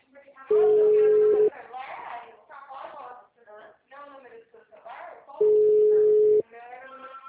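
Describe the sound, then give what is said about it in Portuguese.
A telephone rings unanswered during a call: two long, steady ringback tones about four seconds apart, with people talking over and between them. “tô ligando na prefeitura e ninguém atende.”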